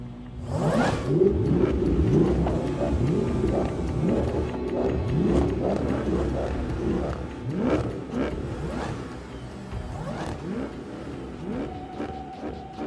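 Car engines revving in a quarter-mile street race scene from the film Fast Five: loud, continuous engine roar with many repeated rising and falling revs, one sweep after another, and no talk.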